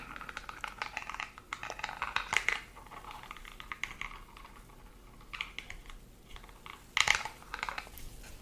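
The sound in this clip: Scratchy brushing and light clicking of a toothbrush with toothpaste on a plastic toy dentist set. The sound is soft and intermittent, with two louder scrubbing bursts and no voices.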